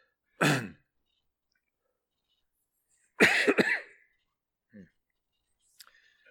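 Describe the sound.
Coughing and throat clearing from a tickle in the throat: one sharp cough, then after a long pause a rougher, louder burst of several rapid hacks, followed by a few faint clicks.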